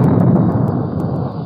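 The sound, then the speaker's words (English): Deep, loud rumbling roar of the battleship Missouri's 16-inch naval guns firing off the east coast of North Korea near Hungnam, a sustained booming rumble with faint crackles scattered throughout. “The blast of sound you hear comes from the 16-inch guns of the Big Mole, the battleship Missouri.”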